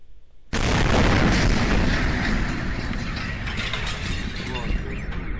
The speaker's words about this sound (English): let me play a little bit of the audio, and in just a few seconds, give you an idea of what people were experiencing on the ground as the meteor went overhead.